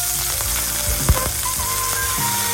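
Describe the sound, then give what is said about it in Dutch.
Hamburgers frying beside a football arena as supporters cook them, giving a loud, continuous crackling sizzle with a brief knock near the middle and no speech. “Dit klinkt wel heel sappig. Ja, dat is het. Is dat een hamburger barbecue? Dit is een hamburger, die wordt graag gebakken.”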